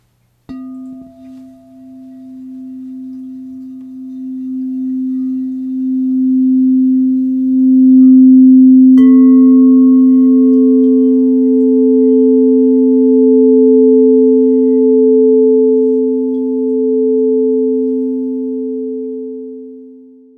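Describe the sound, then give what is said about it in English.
Two pure sine tones sound together as a musical sixth. A steady low tone holds throughout, and partway through a higher tone joins it. The two sustain together, smooth and even, with nothing else heard. “This tonal interval is called a sixth.”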